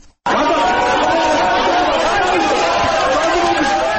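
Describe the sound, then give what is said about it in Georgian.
Courtroom crowd erupting in shouts and ovation after a judge's decision acquitting all defendants: a loud, dense roar of many voices bursts in abruptly and holds steady to the end. “ასეთი ოვაციებითა და შეძახილებით შეხვდნენ მოსამართლე გიორგი დარახველიძის გადაწყვეტილებას დარბაზში მყოფი ადამიანები.”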